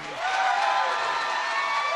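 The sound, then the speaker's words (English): Rally crowd of about 400 people cheering and applauding at a Capitol Hill hotel to welcome 87-year-old West Virginia Senator Robert Byrd, a sustained, even wash of cheers and clapping that holds steady throughout. “The crowd gave a rock star's welcome to 87-year-old West Virginia Democratic Senator Robert Byrd”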